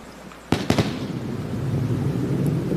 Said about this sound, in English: And the rocket stuck the landing.